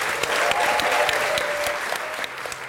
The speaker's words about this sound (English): Before we go, I want you to give a huge round of applause and thank you to our people here.